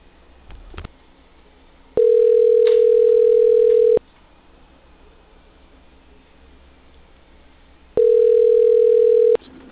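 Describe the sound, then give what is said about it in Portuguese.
Ringback tone while calling a cell phone: two long, steady, mid-pitched tones separated by a few seconds of quiet line hiss, the second tone cut short at the end. “Vou testar aqui, ligar para o seu celular para ver se vai.”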